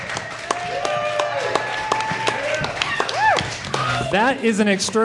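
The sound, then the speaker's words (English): A small live audience at the Bug Theater in Denver cheers and whoops, with scattered clapping, during a Laugh Track Comedy Festival show. The noise is continuous and fairly loud, with overlapping shouted voices rising toward the end. “That is a lot of noise for an audience that's actually slightly smaller than how many people we have when we record in private.”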